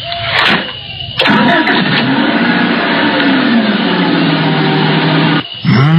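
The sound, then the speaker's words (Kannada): A car engine turning over after trouble, heard as a short burst of cranking that then catches and settles into a steady, loud running hum that continues for several seconds before a brief break near the end. “ಚಾಲು ಆತ ನೋಡ್ರಿ, ಚಾಲು ಆತಲ್ಲ ಸದ್ನಾರ. ಹೆಂಗಾರ ಹೋಗ್ಬೇಕಂತ ಮೊದ್ಲ ವಿಚಾರ ಮಾಡಾಕಿದ್ವಿ, ಈಗಂತರೂ car start ಆಯ್ತು.”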